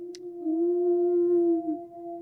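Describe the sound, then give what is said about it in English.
A single long wolf howl holds a steady, clear tone that swells slightly at the start and dips near the end. It is heard alone, without other sounds. “you need to be looking out for, or listening out for, should I say, the wolf howl. It plays every week. It sounds like this.”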